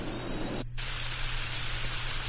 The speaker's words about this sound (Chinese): 下雨天，然后就是雨打在树叶的声音。